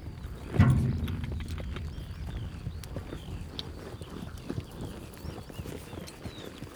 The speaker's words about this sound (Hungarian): Ott is megy egy magányos lovat, látod?